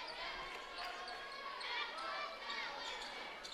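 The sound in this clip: Basketball dribbled on a court during a game, quick bounces under steady crowd noise while a commentator talks over the play.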